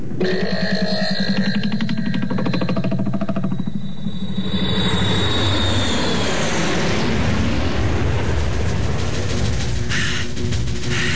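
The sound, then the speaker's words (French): Airplane engine drone from an aircraft carrying skydivers over the Tyrol, a loud continuous roar that holds steady for the whole stretch, with a thin high whine drifting through the early part and no voices. “On va bientôt survoler les Tyrol! Préparez-vous à sauter!”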